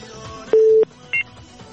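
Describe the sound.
Telephone dialing tones as a caller's line is connected: a longer steady electronic beep followed by a short, higher double-pitched one over faint background noise.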